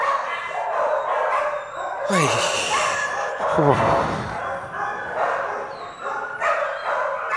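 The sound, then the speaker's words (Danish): Many dogs bark at a dog kennel, overlapping yips and barks piling into a dense, loud din that carries on without pause throughout. “Vi befinder os på en kennel, en hundekennel, hvor jeg har fået arbejde.”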